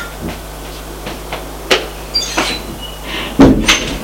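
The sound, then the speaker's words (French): A door off a corridor being opened: a few soft clicks and light knocks, then a louder thump of the latch or panel near the end, with no voices. “et ouvre une porte.”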